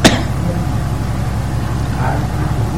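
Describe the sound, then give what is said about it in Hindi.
A generator runs with a loud, continuous engine drone and low rumble that stays steady through the whole stretch. “यदि देखो तो क्या चल रहा है पतला जनरेटर चल रहा है”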